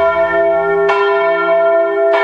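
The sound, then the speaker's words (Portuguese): Church bell ringing to mark the start of catechism: loud, resonant metallic strikes about a second apart, each leaving a long, sustained ringing tone that carries between hits. “Bateu o sino, vai começar a catequese.”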